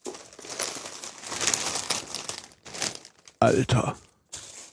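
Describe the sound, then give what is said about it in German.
Crinkling wrapping as a package is unpacked, heard in several uneven rustling bursts with short pauses between them, while people talk. “Jetzt den Rest des Paketes auspacken.”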